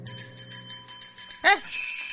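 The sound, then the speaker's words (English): Many bells ringing at once throughout a house, a dense layer of sustained, overlapping metallic tones that carries on steadily, with a brief voiced exclamation cutting in partway through. “Every bell in the house must be ringing!”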